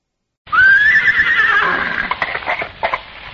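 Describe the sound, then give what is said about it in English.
A pony pulling a trap gives one long, loud whinny that climbs sharply, holds high and shaky, then frays, with a few short clip-clop hoof beats near the end. “what on earth are you doing with the pony and trap?”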